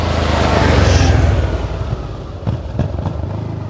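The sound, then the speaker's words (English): A Harley-Davidson motorcycle engine running loud with a dense low rumble that eases slightly after the first second and a half, followed by a few sharp knocks near the end. “All right. Harley Davidson aside”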